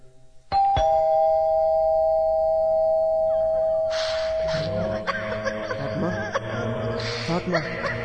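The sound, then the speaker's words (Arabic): A doorbell rings at an apartment door: one sustained electronic chime tone sounds steadily for several seconds, then louder mixed rustling and clattering noise joins and continues to the end. “هل ندق الجرس؟”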